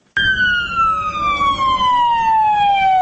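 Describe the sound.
An ambulance siren from a national army medical unit starts abruptly, loud, and sweeps in one long wailing tone that glides steadily downward in pitch.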